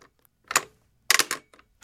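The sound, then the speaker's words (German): A telephone receiver being hung up on an apparatus from a telecommunications collection: a few sharp clattering clicks, a short burst first, then a longer rattling cluster, followed by faint ticks. “Jetzt darf ich noch schnell den Apparat auflegen.”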